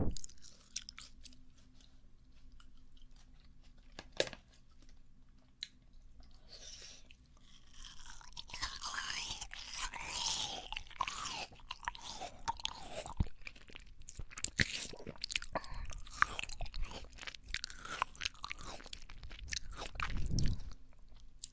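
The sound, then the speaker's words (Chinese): Wet, crunchy chewing of watermelon, with many irregular bites and soft crunches repeating steadily and no talk. “快把西瓜咽下去！”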